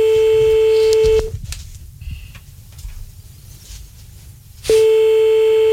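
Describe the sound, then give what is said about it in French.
A telephone number being dialed and hitting a busy signal: a steady phone tone stops, a quieter stretch follows with a brief beep, and then the loud tone returns and holds to the end. “J'ai mon téléphone, j'ai choisi un numéro. Attends, on y va, on y retombe.”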